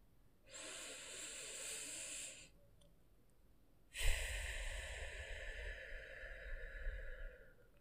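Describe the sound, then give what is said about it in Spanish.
Two quick breaths in a guided breathing exercise, drawn in through the nose and let out through the mouth. The first is a softer airy hiss; the second is louder and longer, with a heavier low rush. “Vamos a inhalar por la nariz y luego vamos a sacar el aire por la boca. Entonces, ahí va la primera.”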